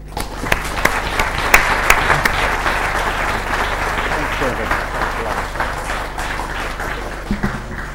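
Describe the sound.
An audience applauds a distinguished visitor as he comes to the podium, with steady, dense clapping throughout that thins toward the end, broken by a few sharper individual claps.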